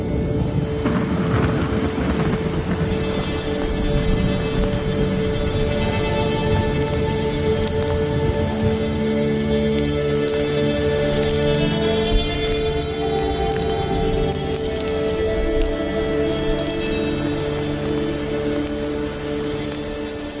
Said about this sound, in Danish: Ej, det regner meget, mand.